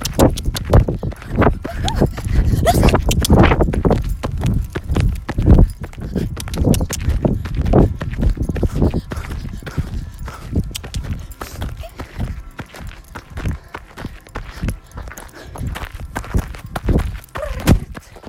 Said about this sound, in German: Gut, ich sehe hier eine Galoppstrecke. Ich mache mir einen Punkt, wo ich wieder anhalte. Punkt ist gesetzt. Vorhin kann ich immer anhalten, aber spätestens bis dann Galopp.